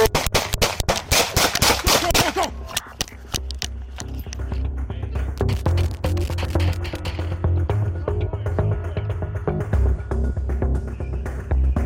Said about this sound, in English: hey, heads up! Shots fired, shots fired!